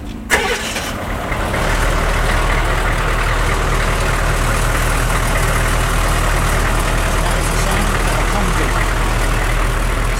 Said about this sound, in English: Would you start her up for me? Yeah, so I can hear her. I think we're still okay. We've got the Humvee and the tuk-tuk side by side in the road.